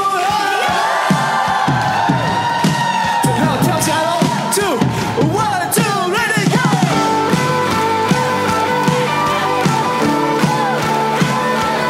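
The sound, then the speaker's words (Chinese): An audience cheers loudly in praise during Christian worship, a dense, continuous clamour of shouting and whooping voices with scattered sharp accents throughout. “大声欢呼”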